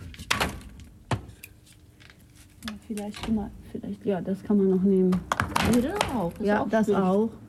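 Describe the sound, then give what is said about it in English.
Wood is chopped for a bread oven fire, with a couple of sharp, hollow thunks at the start, followed by people talking over softer handling knocks. “We need to go and chop some wood, so we can build up a good fire. You need a lot of embers to bake bread. So let's go and chop the wood.”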